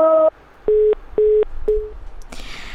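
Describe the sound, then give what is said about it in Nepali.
A telephone busy tone sounds after the caller's line disconnects: a brief buzzy tone, then three evenly spaced mid-pitched beeps, the last one fainter and shorter, before a burst of hissy noise. “तर उहाँको phone disconnect भइसकेको छ।”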